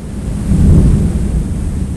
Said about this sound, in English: But to Eric DeLuca, the canyon is by no means quiet. There's tympanic thunder